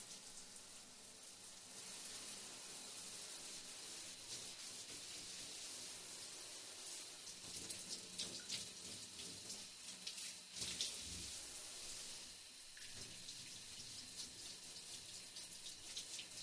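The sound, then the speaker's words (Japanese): Water pours over a body being rinsed during a bath, a steady soft hiss of running and splashing water with a few slightly louder spatters, with no talk. “お次は体の方を流していきますよ。”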